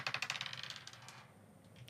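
A single die rolled in a board game clatters in a quick burst of many sharp clicks that thin out and fade within about a second, leaving near quiet.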